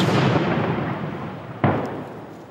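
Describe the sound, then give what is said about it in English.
Outgoing artillery fire during fighting against Russian forces: a heavy rumbling blast fades out, then a second sharp boom strikes and slowly decays. “Outgoing artillery pursues an army once considered one of the most powerful on Earth.”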